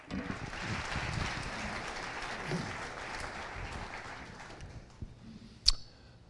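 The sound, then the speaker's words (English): Audience applause at a morning gathering greets a guest. The clapping is steady and moderate, then thins and fades out, and a single sharp click follows near the end. “So let's put our hands together and welcome John Fessel.”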